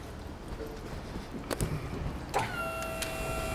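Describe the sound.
A delivery truck's rear tailgate opening on a narrow city street: two faint mechanical clunks, then a quiet, steady motor whine over low background noise.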